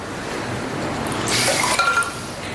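Water is poured for someone to drink, a short splashing pour of about a second with a faintly rising tone, over a steady background hiss.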